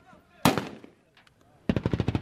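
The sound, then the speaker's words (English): Gunfire aimed at green flag bunting tied to a lamppost at a captured checkpoint: one sharp crack, a short pause, then a rapid automatic burst of many loud, evenly spaced shots. “the shooting you hear is them trying to shoot down green flag bunting that's attached to one of the lampposts in front of this major checkpost”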